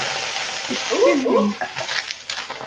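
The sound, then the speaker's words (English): Onions and tomatoes sizzling in a pan with vegetable broth, giving a steady hiss with faint stirring. A voice is briefly heard over it. “it's sizzling, but these are not fumes of oil.”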